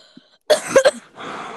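A short, sharp cough from a person with something caught in the throat, a quick cluster of rough bursts followed by faint breathy noise.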